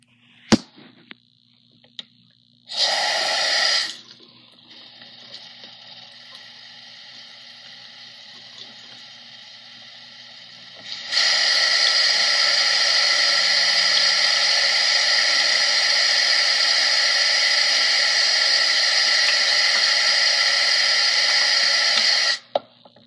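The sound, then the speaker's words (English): Running tap water while someone washes their hands for ASMR, first a short splashing burst, then a quieter stretch, then a long, loud, steady rush of water that stops abruptly near the end. No one talks. “If you don't like water tingles, then you might want to skip ahead”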